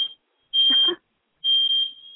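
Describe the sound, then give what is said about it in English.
A fire alarm sounds shrill, high-pitched electronic beeps: three long, even tones separated by short gaps, the first cut off at the start. “But that's my fire alarm. Oh, cool. Yeah. It works.”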